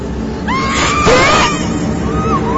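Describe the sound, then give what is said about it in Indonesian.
A girl screams hysterically in long, loud, high-pitched wavering cries that rise and fall, set against a constant noisy background. “Tiba-tiba berteriak dengan histeris. Dia berteriak-teriak seperti orang kesurupan.”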